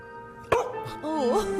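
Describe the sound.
A dog barks once, a single short, sharp bark near the middle, set against a steady tonal hum and soft, wavering voice-like tones that follow it.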